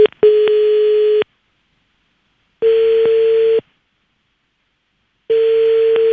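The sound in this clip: Ringback tone of an outgoing phone call ringing out: three long, steady single-pitch tones separated by silent gaps, with no voices.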